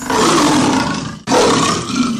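Lion roaring, two long, loud, rough roars in close succession, split by a brief break near the middle.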